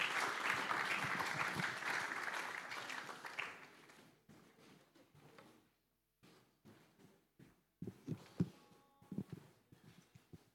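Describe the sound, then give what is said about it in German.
Audience applauding guests taking their seats on stage: loud, dense clapping that dies away after a few seconds into scattered individual claps and soft knocks. “Und ihr dürft ihnen gerne mal einen Applaus geben für den Mut und ihre Bereitschaft, uns heute zu erzählen.”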